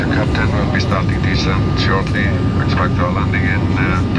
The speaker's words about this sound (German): Also, anschneiden, wir setzen an zur Landung, na klar, in Island.